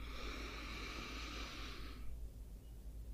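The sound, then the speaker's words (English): A long, deep breath drawn in through the nose during a calming relaxation exercise, a steady airy hiss lasting about two seconds that then stops, leaving only faint low background noise. “And now we're ready to take a deep breath in through the nose”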